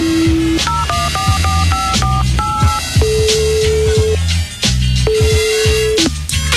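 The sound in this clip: Mobile phone keypad tones from a number being dialed: a quick run of short electronic beeps at shifting pitches, then longer steady tones, loud over a low rhythmic background.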